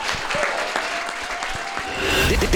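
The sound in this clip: Audience applause rises to a dense, steady clapping that grows louder toward the end, with no talk over it.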